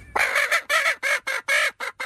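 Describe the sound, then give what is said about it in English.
Repeated squawking, clucking calls from a chicken being tickled on a hobby farm. The calls come in a quick series of short, harsh, fairly loud bursts with brief gaps between them. “the woman says the tickling doesn't hurt the chicken at all. In fact, the chicken is laughing. You ever seen a chicken laugh?”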